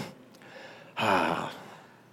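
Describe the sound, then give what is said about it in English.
A big, deep breath: a long, soft airy rush followed by a louder, forceful breathy exhale lasting about half a second, alone against a quiet background. “Well, I'll take a big deep breath.”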